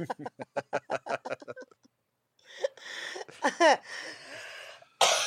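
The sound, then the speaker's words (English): Coughing after choking: a quick run of short rhythmic bursts, a brief silence, then several rough, spluttering coughs, with one more harsh burst at the end. “Excuse me, I choked just then.”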